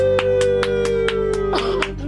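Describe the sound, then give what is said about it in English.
A single person clapping for a contestant walking onto a stage, a steady, evenly spaced run of sharp claps over sustained tonal music. “You got a one-person applaud there. Applause.”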